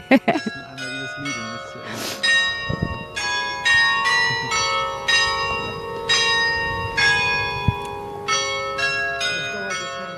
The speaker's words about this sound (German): Das wunderbare Glockenspiel. Wir stehen hier mitten auf dem Marktplatz.